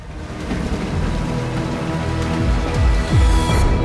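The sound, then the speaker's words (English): Steady rain falls outside a warehouse, a dense, even hiss that continues through the whole clip, with low rumbling tones underneath that swell toward the end. “He locks the door, then looks round at the rain.”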